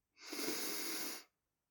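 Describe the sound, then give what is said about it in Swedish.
A deep breath drawn in through the nose during a guided breathing exercise: one smooth, hissing inhale of about a second, heard alone, then silence. “Och ta sedan ett djupt andetag. In genom näsan.”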